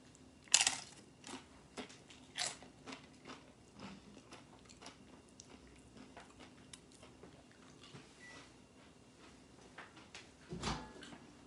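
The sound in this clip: Crisp bites and crunches of corn chips dipped in guacamole. A few quiet, spaced crunches stand out, the sharpest at the start, with softer chewing clicks between them.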